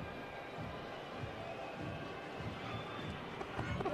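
A stadium crowd boos as a player takes a corner kick in a Real Salt Lake vs Seattle Sounders soccer match, a steady, dense roar of crowd noise that swells slightly near the end.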